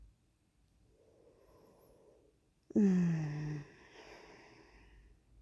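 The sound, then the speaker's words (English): A deep breath: a faint, drawn-out inhale, then a sudden loud, voiced, snort-like exhale lasting under a second, followed by quieter breathing. “Take a deep breath. There. And another.”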